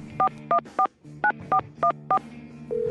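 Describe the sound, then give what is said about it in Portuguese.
Telephone number being dialed on a touch-tone keypad: seven crisp, evenly pitched beeps in two quick groups, three then four, followed by a steady tone that begins at the end. “Vamos lá, né? Discando.”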